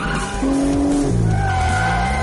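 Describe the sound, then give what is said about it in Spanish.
Tires squeal as a car accelerates while skidding and turns right in an action car chase: a continuous roaring engine with shrill, sustained squeal tones that shift in pitch, loud throughout. “acelera derrapando y gira a la derecha.”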